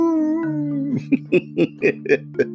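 A werewolf howl in a video game: one long wavering howl that slides down in pitch, then a steady, rhythmic run of short yelping calls over a low droning tone.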